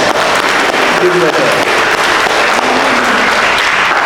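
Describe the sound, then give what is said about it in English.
Applause from a church audience at a Confirmation Mass honouring the confirmation candidates: dense, steady clapping that fills the whole stretch, with voices mixed in. “Yay, team. Let's give them a hand.”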